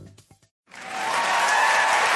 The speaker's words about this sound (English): Sadly, that applause wasn't for me.